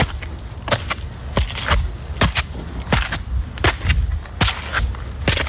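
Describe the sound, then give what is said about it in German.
Footsteps climbing stone stairs up a hill in Heidelberg: many crisp, scuffing steps in an uneven rhythm, some landing in quick pairs, over a constant noisy outdoor background. “Du gehst einen mit Treppen bestückten Berg rauf und ich würde sagen, das klingt so, als wenn der Berg in Heidelberg wäre.”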